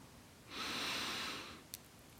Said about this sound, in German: Atme ein.